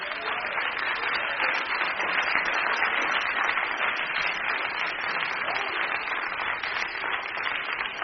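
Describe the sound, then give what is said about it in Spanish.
An audience applauds a preacher at a religious gathering. The clapping is dense and sustained, holding at an even, loud level for about eight seconds without a break. “Denle un aplauso a su hermano.”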